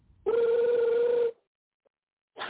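A telephone rings with a steady electronic trill lasting about a second, then falls silent before the next ring starts at the very end.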